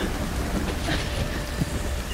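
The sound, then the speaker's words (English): Heavy rain pouring down over a sea that has calmed, a dense, steady hissing wash with a deep rumbling undertone that holds at an even level throughout. “from Estelle, the sea has calmed down again, still pouring down with rain.”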